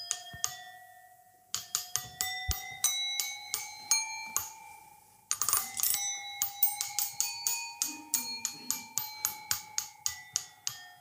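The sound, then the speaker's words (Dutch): Small bells, tuned higher than usual and set about every 15 centimetres along an instrument, ring in many bright, sustained strikes, a brief run, a short pause, then a longer, louder run of steady strokes. “de bellen zijn dus zeg maar kleiner gestemd als dat wij gewend zijn. Luister maar.”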